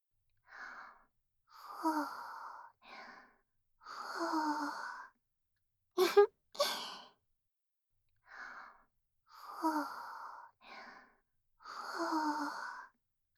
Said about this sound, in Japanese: スープもあるよ。暑いから、ふうふうしてあげるね。